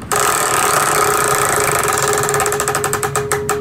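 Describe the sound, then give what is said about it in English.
Ticking of a spinning prize wheel: a fast, continuous clatter that gradually slows into separate, distinct clicks toward the end, fairly loud with no voices. “do you want to spin the wheel and get it started? All right, let's do it.”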